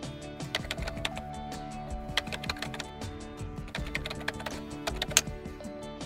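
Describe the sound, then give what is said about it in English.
Rapid typing on a computer keyboard while an email is written: many light, irregular key clicks in quick bursts with brief pauses between runs. “Let's write an email to your grandma.”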